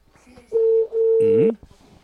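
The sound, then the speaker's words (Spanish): Telephone tones sound as a number is dialed and the call goes unanswered: two steady, mid-pitched beeps with a brief gap between them, the second longer. “Estamos llamando y no nos contesta.”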